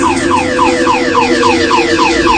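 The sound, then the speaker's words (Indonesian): A car alarm blaring loudly, with rapid, repeating falling siren sweeps over a steady droning tone throughout, and no other sounds. “tiba-tiba suara alarm mobil berbunyi sangat kencang,”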